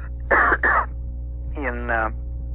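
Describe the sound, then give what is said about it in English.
A lawyer arguing in court clears their throat with two short, harsh bursts in quick succession, then makes a brief voiced sound over a steady low hum. “excuse me just a second, I got something in my throat.”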